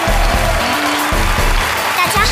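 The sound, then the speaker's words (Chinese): Audience applause welcoming a group of young poets from rural Yunnan onto a stage: a dense wash of clapping that runs throughout, with a voice speaking over it. “掌声欢迎，欢迎你们。”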